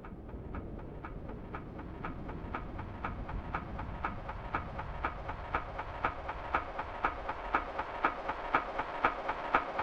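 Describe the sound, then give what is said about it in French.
Rhythmic clickety-clack of train wheels at Saint-Charles railway station in Marseille, with passing trains. Steady, evenly spaced clicks grow louder over a constant low rumble and continue throughout, with no voices. “Extrait de ce qu'on entendait sous le parapluie dans ce pépin pour deux à la gare Saint-Charles. Il faut imaginer qu'autour, il y a aussi le bruit de la gare elle-même qui vit pendant ce temps-là.”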